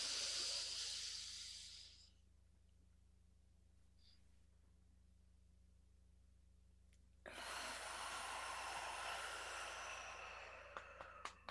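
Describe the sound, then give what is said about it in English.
A deep breath drawn in as a soft hiss during a guided breathing exercise, then several seconds of near silence while it is held, followed by a long, breathy exhale; faint overall. “Take a deep inhale, hold it at the top, and then exhale.”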